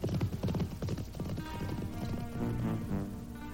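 Three horses are ridden away from a burning city, their hooves making a rapid, steady clip-clop. A horse whinnies partway through.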